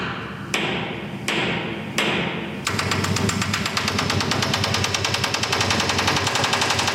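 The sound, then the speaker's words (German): Pneumatic rivet hammer riveting steel plates during a cargo ship's refit in a harbour: three separate heavy knocks, then continuous rapid, machine-gun-like hammering that stays loud and steady. “Als vor ein paar Jahren der Stückgutfrachter MS Bleichen saniert wird, ist nach längerer Pause mal wieder das Geräusch des Niethammers im Hafen zu hören.”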